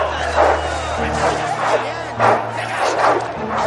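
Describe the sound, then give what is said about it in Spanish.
Dogs barking and snarling as they fight while men look on, with sharp yips and growling bursts set against the hubbub of an excited crowd. “Los hombres sueltan a los perros que se enzarzan. Uno muerde al otro en el cuello.”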